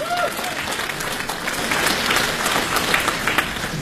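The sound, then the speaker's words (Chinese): Audience applause at a crosstalk comedy show, dense and steady clapping from a large crowd that holds an even, loud level for about four seconds without a break. “掌声有请”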